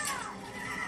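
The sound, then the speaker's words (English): A horse whinnies in a video game, a single bright neigh whose pitch slides downward before settling into a sustained tail. “I'm on a horse, which is new. Ah, oh no, I've crashed the horse.”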